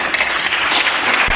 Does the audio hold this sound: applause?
yes